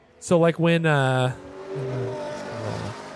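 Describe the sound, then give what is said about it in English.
Ferrari sports cars drive in with engines revving. Two sharp, climbing revs come first, then a long high engine note, which settles into a lower, steadier rumble with softer engine tones. “Wow, a lot of Ferraris.”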